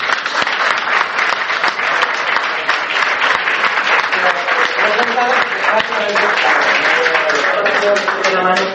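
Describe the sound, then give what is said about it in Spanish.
Audience applause from a crowd, dense steady clapping that continues loudly for several seconds, with some voices rising through it toward the end. “Un aplauso.”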